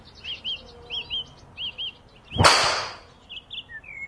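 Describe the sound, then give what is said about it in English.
A golf driver strikes a ball during a practice session with a single sharp, crisp crack that decays quickly, while birds chirp and tweet throughout. “Okay, we're going to start off with the driver now. So give us a couple of shots so we can get some data and see what we need to do.”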